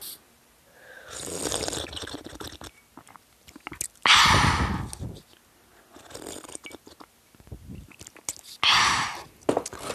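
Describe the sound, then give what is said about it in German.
Someone sips tea, with a few loud, noisy slurping bursts separated by quieter stretches of faint mouth and handling sounds. “Jetzt gibt es hier eine kurze Pause vom Ranking, weil ich nehme wieder einen Schluck Tee.”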